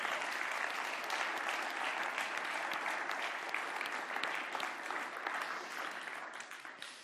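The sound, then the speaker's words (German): Sustained applause from a church audience, dense and loud for several seconds before easing slightly toward the end. “Es klappt aber alles ganz wunderbar und ich bitte euch um einen Applaus.”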